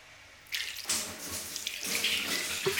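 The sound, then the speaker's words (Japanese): Warm water poured over a person: after a brief quiet start, a steady splashing stream runs to the end with slight surges in strength. “それじゃお湯かけますね。”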